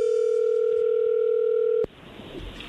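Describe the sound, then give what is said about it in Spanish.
A steady telephone dial tone holds at one constant pitch for nearly two seconds while a call is being placed, then cuts off abruptly and leaves only faint line hiss. “Pues bueno, vamos a llamarle a Guadalupe a ver si te manda los chocolates.”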